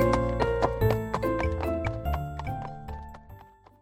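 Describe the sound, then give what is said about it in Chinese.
Horse hooves clip-clop in a steady, even rhythm as a rider sets off, with tonal music playing alongside. “屋主便骑着马出发了。”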